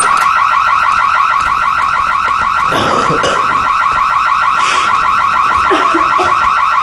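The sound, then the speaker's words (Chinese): An alarm going off: a loud, continuous electronic warble that oscillates rapidly in pitch and holds steady throughout, with a few brief noisy bursts over it. “什么声音啊？这是 报警器。”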